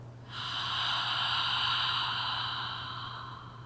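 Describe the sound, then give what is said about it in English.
An audible exhalation follows a breath drawn in through the nose during a guided breathing exercise: a single long, breathy hiss that starts abruptly and slowly fades over about three seconds. “let's make sure that our exhalation has a sound. Let's breathe in through our nose. Breathe out.”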